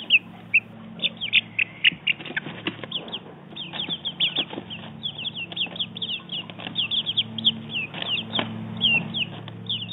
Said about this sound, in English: That was the sound of our 4-week-old chicks.